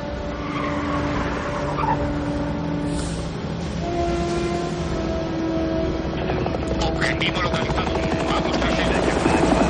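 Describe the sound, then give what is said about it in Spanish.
Helicopter flying overhead as it follows a car through a city, a loud, steady rotor and engine drone throughout, with car engine and road noise blended underneath. “El helicóptero sigue al coche desde los aires.”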